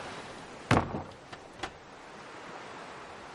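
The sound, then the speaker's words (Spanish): A house door closing at night with one dull, heavy thud, followed by two lighter clicks of the latch. The sounds are fairly faint over a steady low hiss. “cierra la puerta.”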